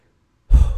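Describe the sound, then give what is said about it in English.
A single deep breath begins abruptly after half a second of silence, a full, airy rush of breath that swells quickly and stays strong to the end. “Deep breath. Take a deep breath, everybody”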